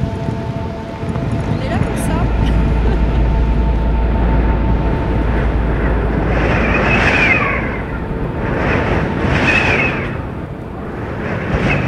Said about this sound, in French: Le vent de face avec la pluie, c'est génial. On change des conditions de tempête